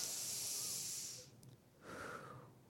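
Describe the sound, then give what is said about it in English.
A slow, deep cleansing breath: a long, faint airy hiss as air is drawn in, a short pause, then a second breathy rush as it is let out. “Now let's everybody take a deep cleansing breath.”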